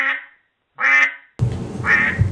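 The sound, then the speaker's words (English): Duck quacks used as an audio cue: a few loud, nasal quacks in separate bursts, the last one set against a rough, noisy background. “the dreaded duck quack. We don't bring this one out much, but we use this audio cue to note when we're fact-checked by our peer reviewers and found to be dead wrong.”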